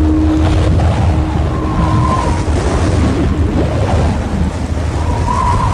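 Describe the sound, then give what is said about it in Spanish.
Violent wind blows through empty streets as a loud, continuous rushing roar with a heavy low rumble and a few faint whistling tones, steady throughout without pause. “El viento sopló violentamente entre las calles vacías.”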